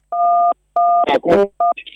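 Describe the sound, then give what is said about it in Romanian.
Telephone keypad tones: three short, steady dual-pitch beeps, with a voice talking in the gaps between the second and third beep. “piuia telefonul”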